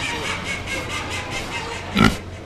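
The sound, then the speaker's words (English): A Chester pig at a livestock show gives a single short, loud grunt near the end, rising out of a steady background murmur. “Tell me about your pig. So he's a Chester pig, and I just named him Chester”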